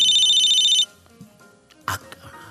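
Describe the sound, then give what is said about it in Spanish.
A telephone rings as a radio show calls a listener in Guadalajara. One bright, pulsing electronic ring sounds for under a second and stops abruptly, followed by faint handling noises and a short soft burst. “Entonces, vamos a llamar a Guadalajara. Sí. En este momento.”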